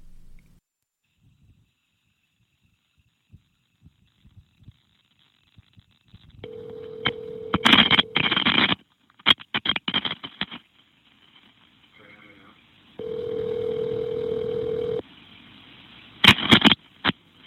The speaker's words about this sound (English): So that caller hung up. Dispatcher called him back.